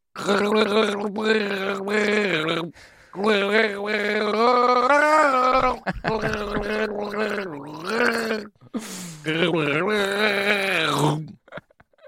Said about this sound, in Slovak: Ak tušíte, ako skladbu vykloktával, dajte nám vedieť na WhatsApp.